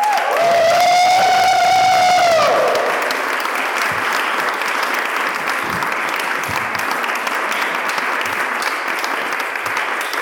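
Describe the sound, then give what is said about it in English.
Audience applause for the players at a live event, a loud, dense and steady clapping that fills the whole clip without pause. “round of applause for all of our players.”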